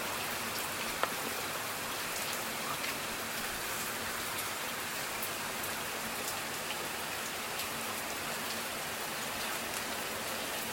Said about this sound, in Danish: med lyden af kraftig regn over Østfyn